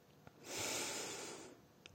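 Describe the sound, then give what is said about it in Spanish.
A single deep inhalation through the nose, a soft airy rush that swells and holds for about a second, faint, with tiny clicks just before and after. “Te invito a que tomes algunas respiraciones profundas de limpieza, inhalando por la nariz,”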